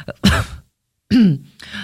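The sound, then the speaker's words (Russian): Coughing and throat clearing from a woman in a studio: a few short, rough bursts separated by a brief silent gap, fairly loud and with no talk around them. “извиняюсь за свои покашливания”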